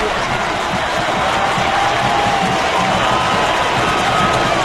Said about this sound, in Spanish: Lo cierto es que llega el segundo gol del elenco talquino y lo celebra todo el público que vino a ver al equipo local.